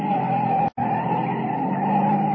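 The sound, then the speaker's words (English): A car skids around a corner on two wheels: a harsh, sustained roar that runs almost without a break, with one brief cut-out early on. “Hold on now. We're going to make this corner on two wheels.”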